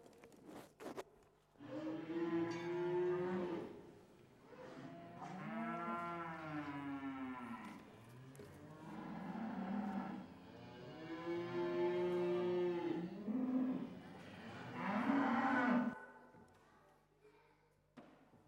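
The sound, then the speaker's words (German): Cattle low in a stable in Bethlehem with a series of long, drawn-out, tonal moos, several calls in a row separated by brief pauses, moderately faint throughout. “Ich gebe euch ein paar Decken und ein warmes Quartier im Stall.”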